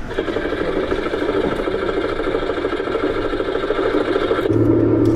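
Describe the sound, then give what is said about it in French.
A Trabant car's two-stroke engine runs with a steady, buzzing rattle at an even loudness, and its tone shifts near the end. “est-ce qu'on peut démarrer cette trabant oui, on peut démarrer cette trabane”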